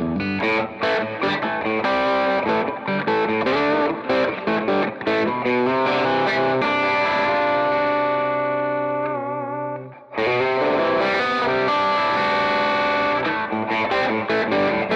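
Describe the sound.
An electric guitar plays chords and riffs through an Eddie Boost Drive overdrive pedal with its boost engaged, giving a loud, gritty but clear distorted tone. The playing pauses briefly before the riffing resumes.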